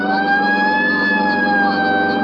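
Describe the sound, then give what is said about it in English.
A police car siren wails loudly and without a break for the whole clip. It holds a steady, high, piercing pitch that wavers only slightly, with no voices over it. “Right, I'll hit the siren. You get the light.”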